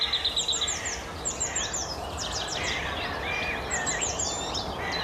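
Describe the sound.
Blackcap and crow song in a waking morning chorus: many bright chirps, quick trills and whistled phrases overlap above a steady low background rumble.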